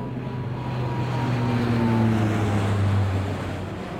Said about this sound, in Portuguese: Será um aspirador, um avião ou um camião? Sim, é isso. É um avião a passar.